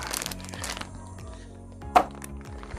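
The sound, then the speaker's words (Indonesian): Scissors cutting open a package: soft crinkling of the packaging, then one sharp, crisp snip near the middle, all faint and without talk. “Oke, saya gunting sedikit nih, gunting ya. Sudah saya buka.”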